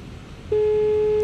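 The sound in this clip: Phone ringback tone heard while waiting for a call to be answered: a loud, steady, unbroken tone begins about midway, after faint background noise, and continues to the end.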